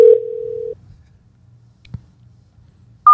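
Telephone ringback tone while placing a phone call: a single steady low beep lasting under a second, then near silence with a faint click, before a higher tone cuts in at the very end.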